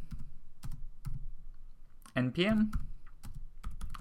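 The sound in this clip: Quick keystrokes on a computer keyboard as a command is typed into a terminal window: many light, irregular clicks, with a brief voice cutting in partway through.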